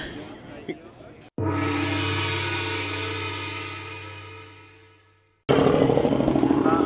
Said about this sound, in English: how the sound reverberates around the town of Lobethal when the bikes go by up the main street there